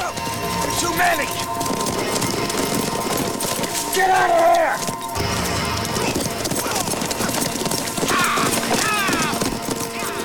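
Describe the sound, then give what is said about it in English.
Hoofbeats of horses galloping away after a Wild West gunfight, a dense, rapid clattering clip-clop that runs steadily for the whole stretch, fairly loud and mixed with other busy sound. “The regulators ride away.”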